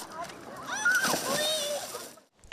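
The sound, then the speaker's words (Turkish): Water splashes and sloshes as people swim and play in the sea, with excited voices, including children's, calling over the spray before a short quiet gap and one last splash. “Onlar denize girerek eğleniyorlar. Aynı zamanda da serinliyorlar.”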